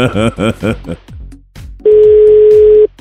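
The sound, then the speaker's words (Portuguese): A telephone call rings out with a single steady ringback tone lasting about a second, which follows a stretch of people talking. “Vamos ligar de novo.”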